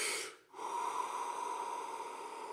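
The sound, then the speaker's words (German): A deep breath drawn in sharply through the nose, a brief pause, then a long, slow, steady exhale that lasts to the end, fairly clear with nothing else around it. “dann holt ganz tief Luft”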